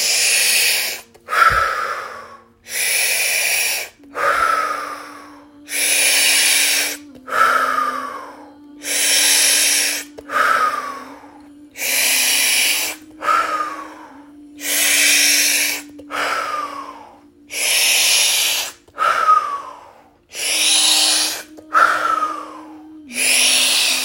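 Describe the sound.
Deep, rhythmic breathing during a breathing exercise: many evenly spaced, loud breathy rushes of air in and out, each followed by a short gap, over a faint, steady low hum.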